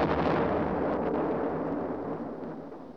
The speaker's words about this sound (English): December the 6th, 1914. German battleships bombard Scarborough, Whidbey, and the Hartlepools.